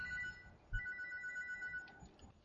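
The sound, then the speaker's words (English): A phone rings with an incoming call, a faint, steady electronic ringtone with clear sustained tones that hold through the moment alone. “oh, great, there's a phone call. Damn it, never fails.”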